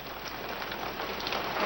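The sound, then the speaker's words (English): Steady rain splatters on a man's face and suit as he stands outside on orphanage steps, a dense, even patter with no voices, growing slightly louder toward the end. “Raindrops splatter on his face and suit.”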